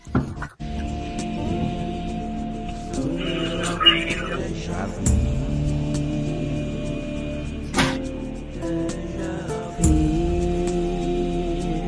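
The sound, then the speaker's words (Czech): A radio show jingle plays, with sustained electronic tones and layered harmonics, punctuated by a few sharp swooshing bursts. “už jsme tady, už jedeme naživo, takže já vás zdravím a pouštím znělku.”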